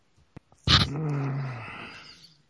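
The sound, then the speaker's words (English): A dog gives a single loud, harsh, drawn-out bark lasting about a second that trails off, after a few faint ticks. “That's my dog.”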